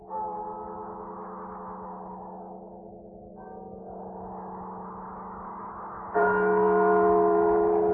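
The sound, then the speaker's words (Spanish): Church bells toll for the dead on All Souls' night, with sustained, reverberant ringing tones that shift as fresh strikes enter, the last one louder, heard alone at a low level. “La noche de difuntos me despertó a no sé qué hora, el doble de las campanas.”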